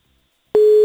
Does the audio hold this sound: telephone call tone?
yes